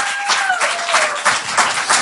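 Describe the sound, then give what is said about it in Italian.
Audience applause at a stand-up comedy show: loud, continuous clapping from many people, with small surges in the second half. “fate un applauso”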